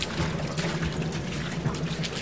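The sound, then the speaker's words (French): Technicians splash and slosh through shallow water on a flooded opera stage. The watery trickling and spattering is continuous and steady, with no pauses. “Si l'on entend des techniciens qui patauchent, c'est parce que les chanteurs passent une bonne partie de la production les pieds dans l'eau dans cette mise en scène de David Bobet.”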